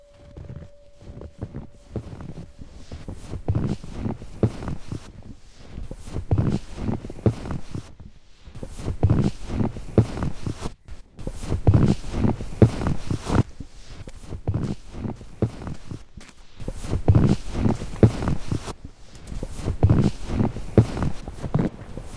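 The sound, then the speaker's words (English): Footsteps crunch through snow on an outdoor winter walk, a long run of steady rhythmic steps with a few short pauses between stretches of walking, moderately loud and with no talking. “this week's is by yours truly, and it's from my first walk in the snow this winter.”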